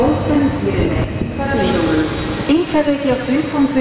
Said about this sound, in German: Und für das habe ich natürlich den Zug genommen.